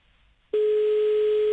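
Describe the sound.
Telephone ringback tone on an unanswered call: after a short quiet moment, a single steady mid-pitched tone sounds for about one second and then stops.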